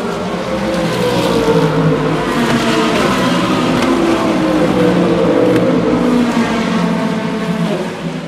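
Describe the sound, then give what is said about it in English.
Hypercar, LMP2 and GT race cars pass on the track during a 24-hour endurance race. The engine roar is loud and continuous, with layered whining and revving tones sweeping past one after another, and no voices. “There go the hypercars. Here come the LMP2s. And the GTs.”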